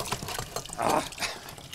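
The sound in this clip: Water splashes from a tap and sprays off a hand held under the stream. The soft, faint hissing splash swells briefly louder near the middle.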